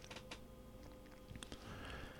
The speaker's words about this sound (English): that squeaky chair in the background means I'm moving around